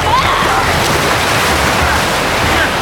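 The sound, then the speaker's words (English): Waves of the incoming tide wash onto a sandy beach in a loud, continuous rush of surf that stays fairly even from start to finish, with no talking. “The tide comes in quickly.”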